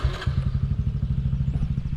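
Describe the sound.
A motorbike ridden into a sugar palm orchard, its low engine putting in a steady, rapid rhythm of pulses with some light clatter and no voices.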